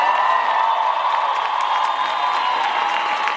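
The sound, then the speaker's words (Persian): An audience at a live music performance applauds and cheers in honour of a singer, a dense, steady wash of clapping and crowd noise that holds at an even level throughout. “یه دست خوشگل بزنید به افتخارش.”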